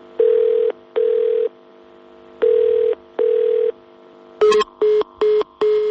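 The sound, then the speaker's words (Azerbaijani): A telephone call to a district police department line sounds four long ringing tones in two pairs, then a click and a few short, quicker busy-signal beeps at the same pitch. “Çağırdı və sonra da telefon məşğul oldu.”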